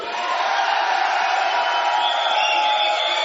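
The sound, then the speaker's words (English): Party crowd cheering at a Cinco de Mayo celebration, a steady, dense roar of many shouting and whooping voices that stays loud and unbroken throughout. “Sounds like everybody's having a good time. Everybody's having a good time. My boys are boozing out there. There's chicks out in the crowd.”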